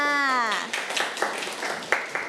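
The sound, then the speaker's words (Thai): Children clap for their classmates during a lesson: after a short stretch of speech, a few sharp, spaced handclaps ring out. “เด็กๆปรบมือให้เพื่อนๆ อีกครั้งหนึ่งค่ะ”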